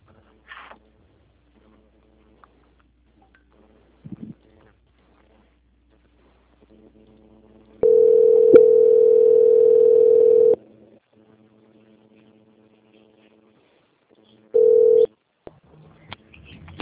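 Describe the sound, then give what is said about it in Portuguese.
Telephone line tones while a call is being transferred: a long, steady electronic tone lasting a couple of seconds, then near silence with faint clicks, then a short beep at the same pitch. “Estou transferindo já a sua ligação, tá bom?”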